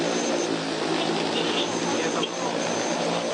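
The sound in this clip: An agricultural crop-spraying drone hums with a steady whirring buzz of spinning propellers, a dense, level whine that holds unchanged throughout, with people talking underneath.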